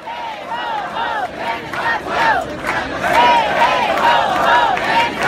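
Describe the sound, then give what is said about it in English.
A protest crowd chants loudly and steadily, many voices rising and falling together in repeated rhythmic phrases throughout. “So some sound there from protests.”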